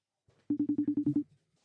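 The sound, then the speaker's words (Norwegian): Telephone call tones as someone is rung up: eight short, evenly spaced beeps at one steady low pitch, faint and alone. “for å finne ut mer av det, så har vi bestemt oss for å ringe Marius Hofseth”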